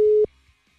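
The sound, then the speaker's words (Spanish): A single telephone tone sounds as a collect call is being connected. It is one steady, mid-pitched beep of about a quarter second, followed by near silence with only a faint low hum. “Siendo transferida y se cobrará al terminar los tonos siguientes.”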